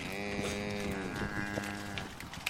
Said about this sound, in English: He leads me to a large shed. Pointing down at a still wet, shivering calf, he grins. Yeah, a little bull calf.